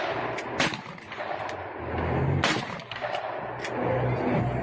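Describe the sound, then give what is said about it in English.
Gunshots ring out as an 11-year-old fires a gun: a few sharp, irregularly spaced cracks, two of them louder, over a steady rumbling background with no talk. “He shoots a gun.”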